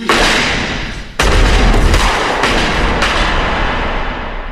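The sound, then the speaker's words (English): Gunfire in a film shootout scene gives a few loud, sharp bangs, each trailing into a sustained heavy roar, with no speech. “Reservoir Dogs ends where Point Blank began, with bullets.”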